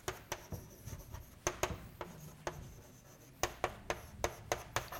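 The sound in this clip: Writing on a board during a mechanics lecture: many faint, sharp taps and short scratchy strokes arrive in irregular clusters, with no voices.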